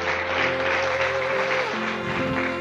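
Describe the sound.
Audience applause at a talk, a dense, even clatter of many hands clapping that keeps a steady loudness from start to finish, with a sustained tonal hum underneath.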